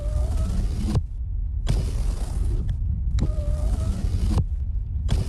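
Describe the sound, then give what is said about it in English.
A car's power windows run up and down four times. Each run is a loud electric motor whir of about a second with creaking, separated by short pauses. “Oh, can you please just stop playing with the windows?”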